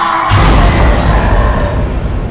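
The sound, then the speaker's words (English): Heavy blasts from cannons and red energy beams strike a humanoid robot and knock it back into a skyscraper. A sudden loud onset opens into a sustained, dense, roaring rumble with crackling breakup. “firing their cannons and eye blasters into Cyclopsis with huge impacts. The red beams hit. The humanoid robot is blasted back into a skyscraper.”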